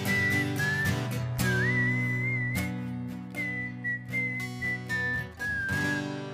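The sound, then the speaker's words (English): A person whistles a wavering, high melody in a live show at a sports bar. The tune comes in phrases with short breaks, over steady musical backing, and no one talks. “Yeah, I'm whistling too.”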